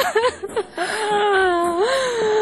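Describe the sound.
Girl crying: a few broken sobs and whimpers give way to a long, wavering, high-pitched wail that dips and rises.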